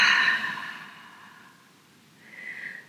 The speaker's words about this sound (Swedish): Och vi andas in genom näsan och vi fyller upp magen med luft som en ballong. Och släpper ut munnen, nej, släpper ut luften långsamt genom munnen.